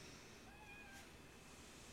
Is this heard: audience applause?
no

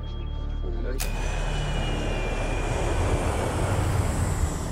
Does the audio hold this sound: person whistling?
no

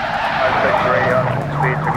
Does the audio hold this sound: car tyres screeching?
yes

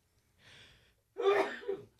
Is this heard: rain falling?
no

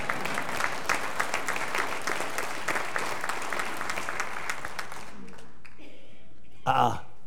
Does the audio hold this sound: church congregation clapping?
yes

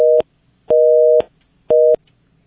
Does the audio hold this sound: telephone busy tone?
yes

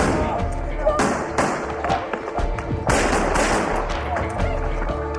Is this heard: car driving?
no

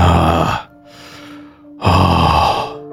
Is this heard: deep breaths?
yes

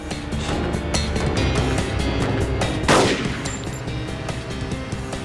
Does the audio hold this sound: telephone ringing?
no

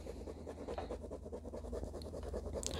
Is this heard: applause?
no

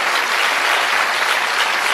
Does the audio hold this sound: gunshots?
no

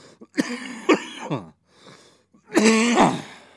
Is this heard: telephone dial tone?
no

